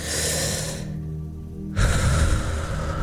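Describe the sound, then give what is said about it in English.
A person takes a couple of quick breaths: two airy, rushing breaths separated by a short quiet pause, the second fuller and lower. “We're going to take a quick couple breaths.”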